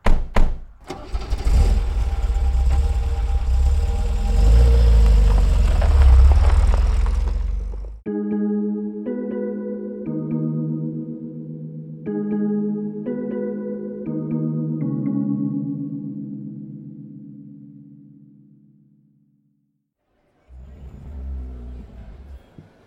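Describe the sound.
A car engine roars loudly as the car drives off, running for several seconds before cutting out. A short melodic musical sting follows.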